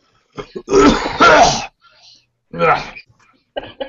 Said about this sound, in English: Yeah, after that cough, I can tell.